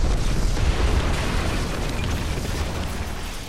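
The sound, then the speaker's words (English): An explosion sound effect: a loud, dense roar and rumble that stays strong for over three seconds and eases off only slightly toward the end. “I might insert like an explodey sound in that.”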